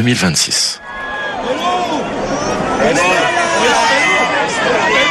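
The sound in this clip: A crowd of pilgrims cheers and acclaims the pope in St Peter's Square in Rome at a general audience. A continuous dense roar of many voices runs throughout, with a man talking over it.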